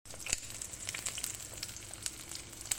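Doughnuts deep frying in hot oil give a steady, faint sizzle dotted with many small crackles and pops, with no talk.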